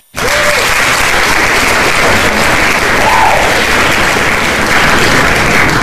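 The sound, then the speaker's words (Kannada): Loud, dense applause for those who sent in correct answers during a quiz segment; it starts abruptly and keeps a steady, even roar of clapping to the end. “ಯಾರೆಲ್ಲ ಸರಿಯಾದ ಉತ್ತರವನ್ನ ಕಳಿಸಿದೀರಾ ಅವರಿಗೆ ನಮ್ಮ ಕಡೆಯಿಂದ ಬರಲಿ ಒಂದು ಚಪ್ಪಾಳೆ.”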